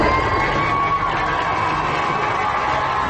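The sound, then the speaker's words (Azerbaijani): A huge crowd cheers and applauds along a route through Baku to the Təzəpir mosque, a continuous, dense, loud roar that holds steady throughout. “Yol boyu onu ucu-bucağı görünməyən saysız-hesabsız xalq kütləsi şallıq və minnətdarlıq sədaları ilə alqışladı.”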